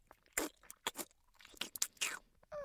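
Someone chews egg noisily with open-mouthed smacks, giving several short, wet bursts in an uneven rhythm separated by brief pauses.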